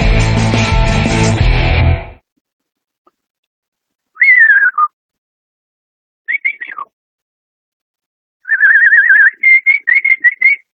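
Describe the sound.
A person whistles in imitation of a canary, with bright, high trilling phrases in a few separate bursts after a short stretch of music at the start. No one speaks.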